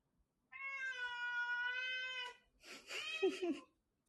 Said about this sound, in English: Frida the foster cat, if you can hear her in the background there.